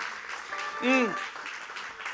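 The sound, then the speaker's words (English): A church audience claps steadily, and a single voice rises briefly over the middle of the applause. “Come on, give the Lord a round of applause.”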